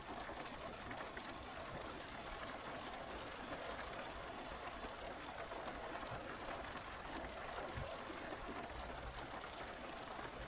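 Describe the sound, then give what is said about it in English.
Rain falls around a car with its boot open in a light breeze, a faint, even, dense hiss of drops that runs on without pause or change in level. “There is a little breeze, so the rain mostly passes by, leaving you untouched from inside the car.”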